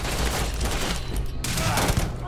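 Sustained gunfire from a rifle-class weapon in a video game: a dense, unbroken rattle of shots fills the whole clip at steady loudness, with no clear gaps between rounds.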